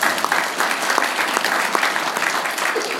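Audience applause rises from a crowd, a dense, steady wash of many hands clapping at once that holds at an even, fairly loud level for about three seconds without a break.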